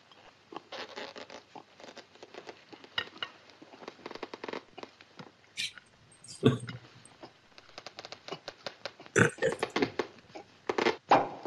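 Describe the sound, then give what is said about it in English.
A long cork is worked out of a champagne bottle with dense, rasping squeaks and scraping, broken by a few sharper pops and knocks. “That's a long cork. Hey, you cheap crook, that bottle's empty. That's dry champagne.”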